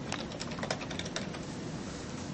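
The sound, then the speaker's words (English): Someone types a web search on a computer keyboard: a quick, irregular run of light key clicks, quiet over a steady hiss, thinning out toward the end. “So what I'm going to do is I'm going to do a search here. We're going to type Great Wall of China.”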